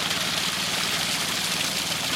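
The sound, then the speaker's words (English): Steady, continuous drone of fuel-powered engine pumps running to pump floodwater out from under a lodge's floors, low and unbroken throughout, with no voices. “So this is where the water is coming in, and we're just pumping it out before it touches the floor, so we can remain open.”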